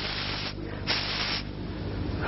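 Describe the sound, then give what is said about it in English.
A voice imitates a hiss: a sustained, breathy, airy hiss that runs for about two seconds with slight wavering in strength, no other sounds around it. “He hisses. He hisses for people.”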